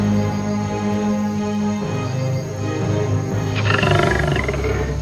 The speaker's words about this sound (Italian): Poi si udì un ruggito. Un leone uscì maestosamente dalla foresta.